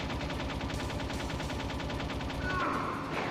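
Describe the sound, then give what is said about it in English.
Rapid gunfire from the Metal Gear Solid Integral video game during a vehicle chase boss fight: a loud, unbroken stream of evenly spaced shots like automatic weapon fire, holding the same level throughout. “How did he shoot me when I'm shooting at him like a fiend?”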